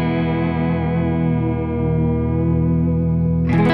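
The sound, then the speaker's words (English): An electric guitar with a coil split and simple master tone and volume controls rings out one sustained chord, wavering with vibrato and washed in heavy reverb, ending in a brief noisy scrape. “But it sounds a little like this. The trem is very good. And I got a lot of reverb going right now, but that's vibrato.”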